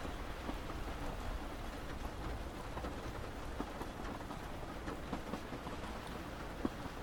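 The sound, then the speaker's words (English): Steady rain falls, a soft, even hiss of drops with faint scattered patters, low in level and without pauses. “In time, the rain lessens and the skies shine brighter, with some sunlight”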